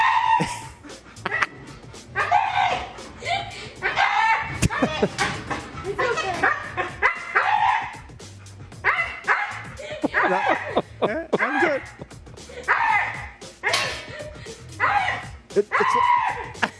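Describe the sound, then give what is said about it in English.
A husky tugging on a rope makes many strained, growling whines and yips in repeated bursts, while people talk throughout. “Every time she pulls the rope, it's like, it's like that. It's like the bulldog. I didn't know a dog could make that noise.”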